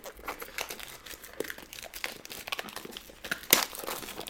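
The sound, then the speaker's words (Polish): Heavy, hard-to-remove plastic foil is peeled off a cardboard box, giving faint, irregular crinkling and crackling with one sharper snap near the end. “naprawdę bardzo ciężka folia do usunięcia”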